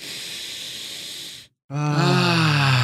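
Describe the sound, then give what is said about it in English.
A deep breath drawn in as a long, steady breathy rush, then after a brief silence a loud, voiced, groaning exhale. “So, let's take a deep breath.”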